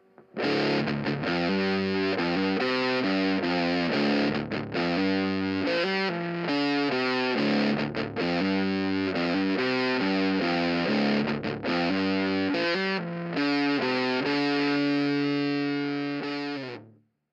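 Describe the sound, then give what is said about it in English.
Electric guitar played through dry effects pedals into an amplifier, heavily distorted, chugging through a steady run of loud chord changes on its own, with the final chord ringing out at the end. “We'll put them in between the guitar and the output of our amplifier to get our dry sound, like this.”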